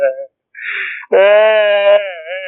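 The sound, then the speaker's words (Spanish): A person crying in drawn-out, wavering wails, with short voiced sobs broken by pauses before one long, loud, quavering cry. “¿Por qué llora? Porque se está riendo de mí.”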